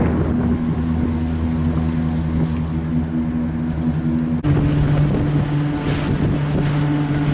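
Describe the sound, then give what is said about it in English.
Steady engine drone of a ship crossing the Rhine, a low, even hum with wind noise over the water. Partway through, the engine tone shifts slightly and the wind gusts louder. “Going on a ship beyond the Rhine to the other side.”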